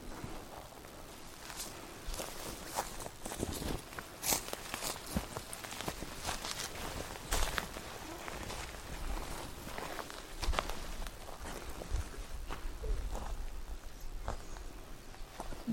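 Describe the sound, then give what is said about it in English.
Footsteps walking across a beaver dam on a wetland pond: many irregular crunching steps, some heavier than others, over a quiet, still outdoor background. “This is the beaver pond. And they made this dam here that we're about to walk on.”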